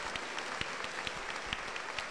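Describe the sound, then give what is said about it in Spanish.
A church audience applauds with a steady patter of many clapping hands, fairly faint and even throughout, with no talk. “Aplausos contentos para el Señor Jesús.”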